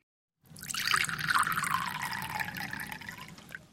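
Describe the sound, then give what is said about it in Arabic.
Wine is poured from a bottle into a glass, a steady gurgling trickle that begins after a moment of silence and runs for about three seconds. “سحبت الزجاجة وصبت لنفسها كأسا”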